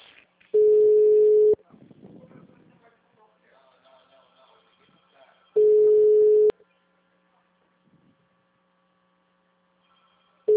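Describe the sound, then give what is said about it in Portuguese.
Ringback tone of an outgoing phone call: two steady, low, one-second tone bursts separated by a long silent gap, with faint scattered background noise between them. “Eu tô ligando, ele não tocou aqui.”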